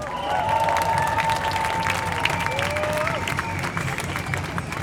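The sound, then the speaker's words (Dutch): Sustained applause from an audience at a live event welcoming a speaker onstage: a dense, steady clatter of many hands throughout, with some cheering and a whistle above it. “Een groot applaus voor Nina Boelsens.”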